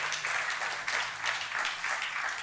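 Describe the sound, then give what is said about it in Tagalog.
Church audience applauding God during worship: a dense wash of many hands clapping, swelling and easing in rolling waves without a break. “Palakpakan po natin ang ating Diyos.”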